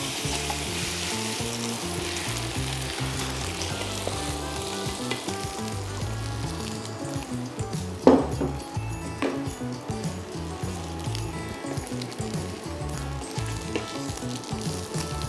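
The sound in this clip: A potato tortilla (Spanish omelette) sizzles and crackles steadily in a frying pan over lowered heat after being flipped, with one brief, louder clatter near the middle.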